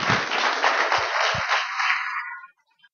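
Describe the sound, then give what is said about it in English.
Applause from a church audience welcoming three people who are about to be baptized: dense, even clapping with a few low thumps, lasting about two and a half seconds before stopping abruptly. “We're going to be baptizing three folks today, and so this is a great day of celebration. So why don't you guys come on up, and let's give them a hand of welcome, will you?”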